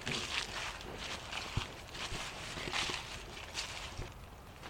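Footsteps walking on a farm: faint, soft, irregular steps under a steady hiss of background noise.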